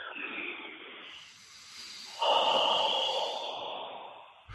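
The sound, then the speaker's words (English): Two deep breaths, each a long, airy, hissing exhalation, the second louder and fuller than the first, with a quiet pause between them and no talking. “First, I just needed to take two deep breaths.”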